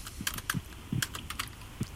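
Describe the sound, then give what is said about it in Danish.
Rapid typing on a computer keyboard: many quiet, crisp keystroke clicks in an uneven rhythm, with a few duller thumps of heavier presses, alone without talk. “Nu prøver jeg at skrive det der.”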